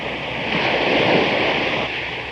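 Ocean waves crash on a beach in a single broad, hissing surge that swells, holds briefly and then recedes.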